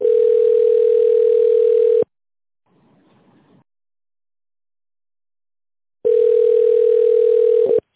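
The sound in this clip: A telephone ringback tone plays while a call connects: two long, steady, mid-pitched tones separated by a few seconds of near silence, loud and with no talk.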